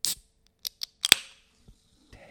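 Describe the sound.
A bubbly drink is opened: a few sharp clicks and snaps lead to one louder crack with a short fizzing hiss, then near silence.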